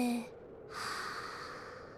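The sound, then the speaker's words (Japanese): A deep breath drawn during a breathing exercise: one long, soft, airy rush of breath that continues steadily to the end, following the tail of a voice at the very start. “深呼吸でちゃんと空気を体内に取り込もうね。せーの、吸って、吐いて、”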